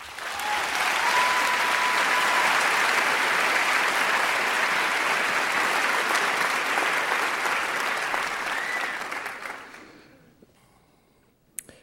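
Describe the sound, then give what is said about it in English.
An audience applauds to welcome author Russell Banks, a dense, even clatter of many hands clapping that holds steady for most of the time, then fades away, leaving near silence with a faint knock at the very end. “Russell Banks has this story. He is the author of numerous books. We are honored to have him. Please welcome him.”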